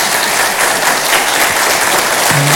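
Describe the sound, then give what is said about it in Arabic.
An audience applauding guests at a live show, with dense, steady clapping that stays loud and even throughout, with no pauses or cheering. “وجمهور ما بكون زقفوا لهم”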